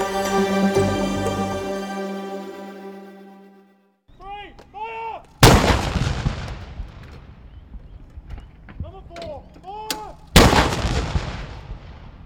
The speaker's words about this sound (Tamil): பத்தொன்பது துப்பாக்கி வேட்டுகளை தீர்த்து மரியாதை செலுத்தும் பாரம்பரியத்துடன் நாட்டின் 46வது நாடாளுமன்ற நடவடிக்கைகள் முடிவுக்கு வந்துள்ளன.